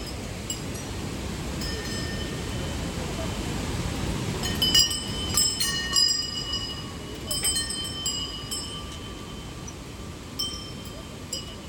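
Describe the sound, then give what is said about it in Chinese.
Flowing water beside a stupa hung with many bells: a steady, rushing wash, with bright, high tinkling chimes joining after a few seconds and recurring irregularly over the water. “你可以听一下这个水声。旁边有一个佛塔，然后有很多铃铛。”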